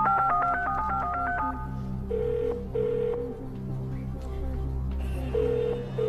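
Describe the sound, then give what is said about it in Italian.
Telephone keypad tones beep in a rapid run as a number is dialed, followed by a few longer ringing tones over a sustained low musical bed. “Voglio telefonare a un amico.”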